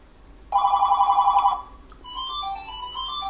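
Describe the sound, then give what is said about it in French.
A mobile phone ringtone plays: a loud, bright warbling electronic tone pulses rapidly for about a second, then shifts to a softer melodic phrase of high notes that continues to the end. “It's my telephone.”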